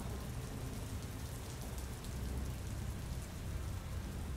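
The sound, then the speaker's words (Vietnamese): Heavy rain pours down as a dense, unbroken hiss of falling water. It stays fairly faint and steady throughout, with no separate drops or thunder standing out. “Trời bắt đầu đổ mưa tầm tã.”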